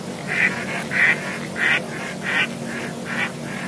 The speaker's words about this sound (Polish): Lipówkę jest krzyżówka, zwana również po prostu dziką kaczką. Jej charakterystyczne kwakanie